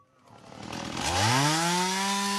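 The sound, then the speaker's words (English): Chainsaw cutting in bushland south of Perth, Western Australia, revving up over the first second into a loud, sustained buzzing whine that holds steady to the end. “Armed with shovels, rakes and chainsaws, a team of citizen searchers are working their way through bushland about 300 kilometres south of Perth”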